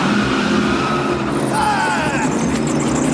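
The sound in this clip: A convertible car drives off with a loud, continuous rush of engine and road noise. The roar stays fairly even throughout the short span.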